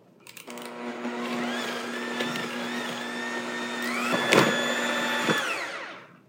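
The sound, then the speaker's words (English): Electric mixer creaming eggs with vanilla: a steady, high motor whir with a humming tone that wobbles briefly near the end, then winds down and stops. “So I'm going to cream the eggs in there with the vanilla.”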